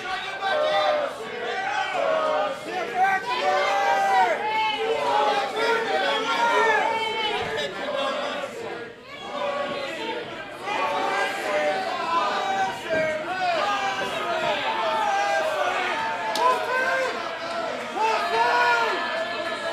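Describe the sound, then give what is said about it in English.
A crowd at a pro wrestling match shouting and chanting at a fighter. The dense, steady roar of many voices runs throughout, with commentators talking over it. “the crowd seems to be calling him a cat.”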